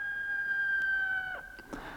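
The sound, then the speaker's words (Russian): A rooster crows faintly, holding one long, steady, high note that drops away at the end, followed by a few soft clicks. “А знаешь, о чем они поют? Нет. Они говорят, что от первых петухов”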